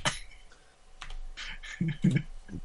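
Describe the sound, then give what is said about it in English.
Typing on a computer keyboard to look up a movie online, an uneven run of quick, crisp key clicks with brief pauses between clusters and no voices over them. “I'm go on IMDb, type in Thanksgiving.”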